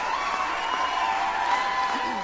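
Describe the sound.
A rowdy crowd cheering at a Hillary Clinton speech, a continuous dense roar of shouts and whoops held at an even level throughout.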